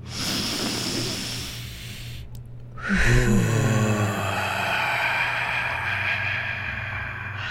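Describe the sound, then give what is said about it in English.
A long, deep breath is drawn in through the nose, a steady airy rush that stops briefly and then carries on for several more seconds. “Oh, and it's really good to breathe in through the nose because you've got that nitrous oxide going through the system too.”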